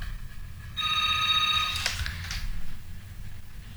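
A telephone rings for an incoming call: a single high, trilling ring lasting about a second over a low, steady hum. No voices are heard.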